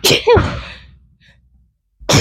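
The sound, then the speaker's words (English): A single loud human sneeze: a sharp burst and a short trailing exhale, then near silence, with a brief sound at the very end. “I need to sneeze. Sorry.”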